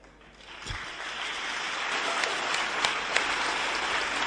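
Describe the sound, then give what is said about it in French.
Audience applause swells in over the first half second, then settles into steady, fairly soft clapping with a few sharper claps standing out near the end. “Pendant que vous applaudissez”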